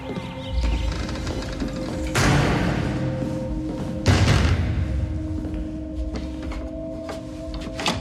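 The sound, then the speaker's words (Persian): Knocking on a door comes in two loud bursts of rapid pounding a couple of seconds apart, over a low steady background hum. “چرا اینطوری در میزنی؟”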